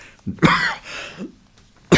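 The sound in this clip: Coughing from someone whose sore throat is failing them: a few harsh, throaty bursts with the strongest near the start and end, heard alone without talk.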